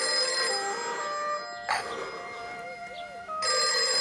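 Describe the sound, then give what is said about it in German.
Telephone bell ringing in loud, bright bursts: a long ring at the start, a quieter stretch with faint tones, then the ringing returns at the end. “Ein Telefon?”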